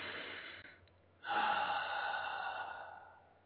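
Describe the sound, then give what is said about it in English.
A big, deep breath taken on cue: a softer breath, then a longer, fuller airy breath that swells quickly and slowly fades, quiet and without talk. “Let's take a big, deep breath”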